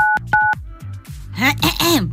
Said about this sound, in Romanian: Sunăm? Da, sunăm. Îl sunăm pe cumătru? Da, hai să-l sunăm.